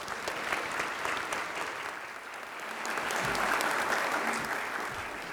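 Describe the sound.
Audience applause welcomes a woman speaker to the stage at a Christian gathering, a steady wash of clapping that swells midway before easing slightly toward the end.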